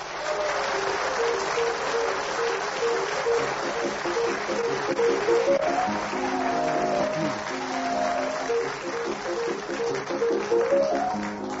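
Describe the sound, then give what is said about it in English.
Chopin's Minute Waltz plays as the theme tune of a comedy panel game: quick piano figures with repeated rising runs, mixed with steady applause throughout. “as the minute waltz fades away”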